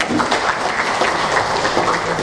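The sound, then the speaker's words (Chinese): Students applauding a classmate in a computer class, a loud, dense wash of many hands clapping steadily throughout. “但是大家要不要给他一点掌声？”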